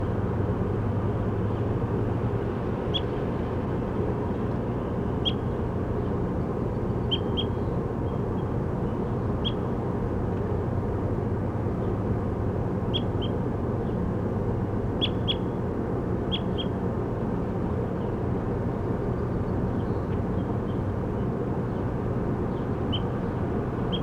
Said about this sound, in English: recording bird 34.